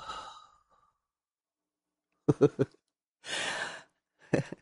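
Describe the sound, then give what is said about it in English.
Slow, breathy exhales like sighs from a group doing a deep-breathing exercise before stretching. They come as a few soft, noisy bursts separated by stretches of silence. “Everybody breathe in one deep breath like. Slowly let it go.”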